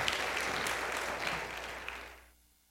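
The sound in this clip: Church audience applause welcoming a guest speaker to the front: a steady, dense wash of clapping that holds level, then fades out near the end.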